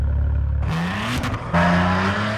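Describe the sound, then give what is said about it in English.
An Italian sports car, a Maserati featured in a commercial, revs hard: a deep engine note climbs steadily in pitch, then swells into a louder, fuller roar toward the end. “This is a commercial for Maserati that ran during the 2014 Super Bowl. It features the young Oscar winner Kovanjine Wallace, and of course, an Italian sports car.”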